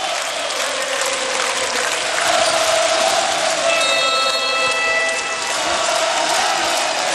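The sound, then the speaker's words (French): Loud, steady roar of a standing crowd in Berlin during the final seconds of a match in which Belgium is about to qualify for the quarterfinals, a dense, unbroken wash of noise throughout. “Le public est debout. Il reste une trentaine de secondes.”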